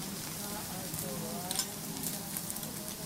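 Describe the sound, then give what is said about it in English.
Vegetables and a steak sizzle on a grill, giving a steady, hissing frying sound with scattered small crackles that runs unbroken throughout. “So he's grilling up some vegetables. This is making me hungry. Yeah, looks good. He's cooking this very rare type of steak.”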